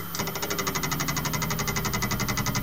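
A failing hard disk drive makes a second start-up attempt, giving a steady, rapid train of repeating mechanical clicks and buzzing pulses in an even rhythm with no pauses.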